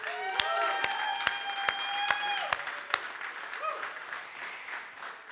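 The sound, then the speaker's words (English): A church audience applauds during a service to welcome a pastor and his wife to the stage, with sustained, moderately loud clapping and several sharp individual claps standing out. “So could you please put your hands together at both locations and welcome to the stage someone you may know, but Pastor Andrew and his wife Lulu.”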